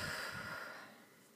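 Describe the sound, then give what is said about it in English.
A deep exhale after a held breath during a guided breathing exercise: soft, breathy airflow that starts strongest and tapers away over about a second and a half, quiet and without talk. “Big breath in. Hold. And exhale.”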